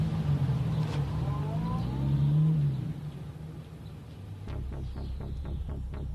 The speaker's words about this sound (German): Jetzt fährt er mit einem Cabrio davon.